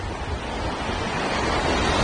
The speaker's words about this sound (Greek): Είναι πολύ ορμητικός ο χύμαρος που έχει σχηματιστεί εδώ πίσω μας. Το νερό κατεβαίνει ορμητικό επάνω από την περιοχή που βρίσκεται από εδώ από πάνω